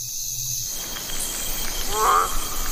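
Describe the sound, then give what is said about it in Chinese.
A male milk frog calls from its water pool high in a tree to attract females: one brief call near the end over a steady, insect-like hiss. “一只雄性牛奶蛙也守护着自己的宝宝。此时，它放声鸣叫，想要吸引雌性牛奶蛙们来自己的水洼产卵。”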